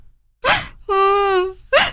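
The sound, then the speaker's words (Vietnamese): A girl bursts into sobbing cries: a sharp, shaky gasp, then a sustained wailing cry whose pitch sags slightly, then another quick sobbing gasp. “Cô bé òa lên khóc nức nở.”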